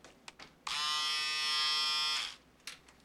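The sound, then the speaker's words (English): Electric razor switched on, a single steady high-pitched buzz lasting about a second and a half before cutting off, with faint clicks of handling before and after. “Ooh, and look what I got for you. Oh, an electric razor. So you can shave yourself now.”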